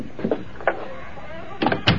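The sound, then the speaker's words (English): An unlocked door being opened: a few short knocks and scraping bumps at irregular intervals, moderately loud with quiet gaps between. “Door ain't even locked. That's kind of funny, Monk. Why should the door be... Follow me.”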